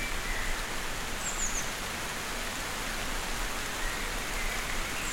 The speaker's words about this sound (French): Juste une ondée. Ondée printanière.